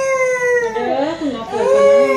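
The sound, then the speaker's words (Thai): Wailing cry of a one-year-old child: a loud, high, tonal wail with wavering pitch that dips briefly midway, then rises and holds again. “คุณผู้ชมลองไปฟังเสียงร้องโหยหวนของเด็กอายุ1ขวบกันนะคะ”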